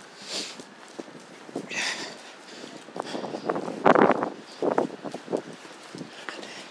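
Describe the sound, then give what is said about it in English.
Footsteps of a person walking with a guide dog on a cobbled road: many faint, irregular taps and scuffs, with one louder knock partway through. “Now walking on the cobbled road.”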